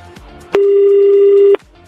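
A telephone being dialled, with one loud, steady tone lasting about a second, framed by faint clicks before and after.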